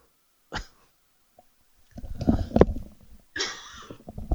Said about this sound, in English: first cough, second cough.